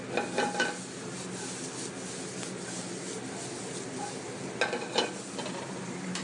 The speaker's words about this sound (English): Black eyed peas, I'm gonna add those to the mirepoix now.